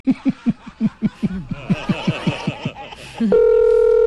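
Snickering laughter in quick bursts, then a loud, steady telephone dial tone that cuts in abruptly and holds to the end.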